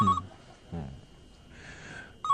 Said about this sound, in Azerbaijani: Telefona cavab ver.